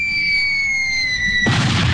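A bomb explosion sound effect: a steady, high whistling tone cuts abruptly into a loud, sustained, rumbling blast of noise.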